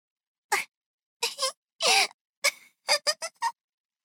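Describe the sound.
A small boy crying, letting out many short gasping sobs and wails in separate bursts with brief silences between them.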